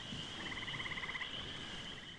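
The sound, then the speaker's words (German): Frogs croaking in a swamp at night, a faint, rapid pulsing trill of croaks that rises out of a steady hiss and fades again, with no voices. “das Gesumme der Mücken, das Gequake der Frösche und das rührende Gebrüll der mächtigen Sumpfhaie”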